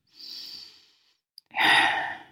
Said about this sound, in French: Vas-y, viens, on respire ensemble.